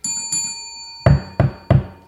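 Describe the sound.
Knocking on a house door: three firm, sharp raps in quick succession, heard alone after a brief ringing, bell-like tone.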